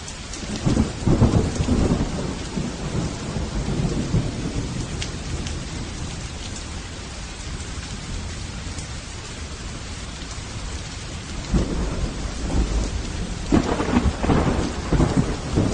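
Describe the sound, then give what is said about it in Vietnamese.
Steady, heavy rain pours down throughout, with low rumbles of thunder swelling near the start and again toward the end. The rain is a dense, continuous hiss, and there are no voices. “Bốn bề yên tĩnh lạ thường, chỉ nghe thấy tiếng gió thổi mưa rơi.”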